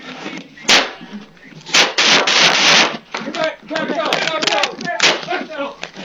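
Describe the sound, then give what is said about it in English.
Gunshots ring out during a chaotic police response to a shooting inside a building, recorded on an officer's body camera: a few sharp, loud bangs punctuate shouting voices and commotion. “20 wounded, shots fired, shots fired!”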